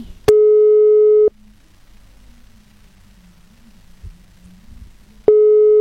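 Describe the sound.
Telephone line tone on a call being connected: a steady, fairly low tone sounds in two loud bursts, each about one second long, separated by roughly four seconds of quiet line hiss.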